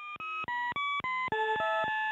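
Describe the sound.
A telephone hold line's ringing tone plays as a quirky run of short, steady electronic beeps, each at a different pitch, following one another at a brisk, even pace with no voices.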